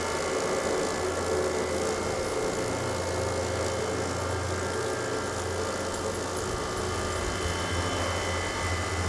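Aircraft engine roaring during takeoff, a loud, steady droning hum with a deep low rumble that holds unbroken throughout, no voices heard.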